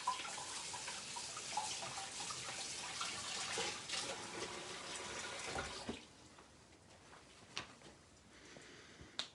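Tap water runs while a sticky object is rinsed off, a quiet, steady splashing hiss for about six seconds that then cuts off, leaving a few faint drips and taps.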